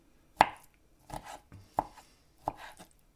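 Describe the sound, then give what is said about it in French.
A knife chops fruit into small pieces for a ceviche, giving a few sharp, separate taps at an uneven pace, quiet and with no talk. “Et on coupe les fruits en petits bouts.”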